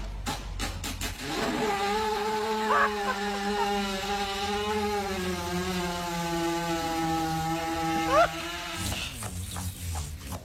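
A horse lying on its side with digestive discomfort breaks wind in a long, buzzing, kazoo-like blare that holds a fairly steady pitch for several seconds, framed by short scuffling sounds before and after.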